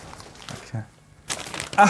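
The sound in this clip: Crinkling and rustling of rainbow-patterned gift wrapping paper as a present is unwrapped: quiet, scattered crackles at first, then a louder, denser burst of paper noise in the second half.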